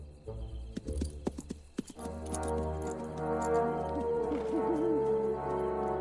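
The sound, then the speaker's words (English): Horse hooves clip-clop as a horse gallops off pulling a cart into a forest. A few sharp hoof beats stand out in the first seconds, then a steady, sustained tonal sound carries on beneath them to the end. “Annalise hops on the cart, takes the rein, and encourages Alve, the horse, to gallop away.”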